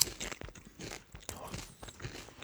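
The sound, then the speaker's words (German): Basil-flavoured potato chips crunch faintly between the teeth in a few sharp, dry bites and chewing crackles, quiet and irregular. “Okay, ich probiere dann auch mal. Ja, das ist ein ganz anderes Geschmackserlebnis. Da schmecken jetzt auch mal die Chips. Da das Basilikum an den Chips ist, das schmeckt ganz toll.”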